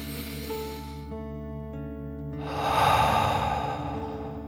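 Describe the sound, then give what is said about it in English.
A deep breath in and out, taken slowly during a guided relaxation exercise, with a long, louder breathy exhale swelling in the second half over soft, sustained background music tones. “As you relax, let's take another deep dragon breath in and out.”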